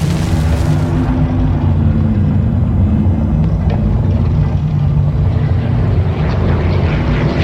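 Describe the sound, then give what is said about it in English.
An aircraft motor running at takeoff at Oakland, California, in May 1937, a loud, continuous droning roar with a dense low rumble that holds steady throughout, with no voices over it. “It was the sound of the motor. Take off,”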